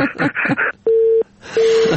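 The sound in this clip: Busy tone on a phone line after a caller's call was cut off: two steady, mid-pitched beeps of equal length with a short silent gap between them. Each beep stays level and clear.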